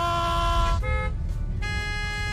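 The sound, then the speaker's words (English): Car horns honk in street traffic at a hesitant learner driver, with long, loud, overlapping blasts in different tones, briefly broken by a shorter honk before another sustained blare returns. “Why is everyone honking at us?”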